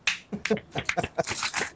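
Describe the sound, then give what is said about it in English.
A single person claps their own hands in a quick, uneven run of sharp, short claps at a moderate level, with no talk over them. “Clap myself.”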